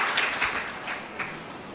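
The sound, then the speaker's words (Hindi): Audience applause: a steady, faint patter of many hands clapping continuously, with no voices over it. “हाँ ताली तो बजाओ”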